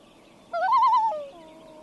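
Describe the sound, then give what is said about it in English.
An upset loon calls near its nest on a floating platform, giving one loud, quavering, wavering call that lasts under a second, then trails into a fainter, lower, steady tone. “These loons are upset because we are close to their nest on this floating platform.”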